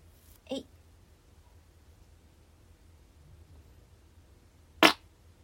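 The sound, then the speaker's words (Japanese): Two brief farts after eating lots of cake at a buffet, a short puff early on, then quiet, then a louder, sharper burst near the end. “ちょっとビュッフェのお店に行ってご飯をいっぱい食べてきました。ケーキをたくさん食べてガスも溜まったと思うのでおなら出したいと思います。”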